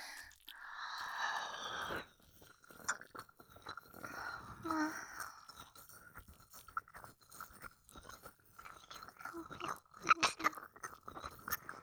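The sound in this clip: Close, wet mouth sounds of ear-eating ASMR: many soft smacks, licks and crunchy clicks in an uneven rhythm, with breathy hiss at the start and a few louder crackles near the end.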